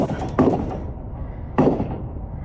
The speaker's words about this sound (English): Those shots fired near an In-N-Out Burger restaurant in Twin Falls, Idaho, about 130 miles southeast of Boise.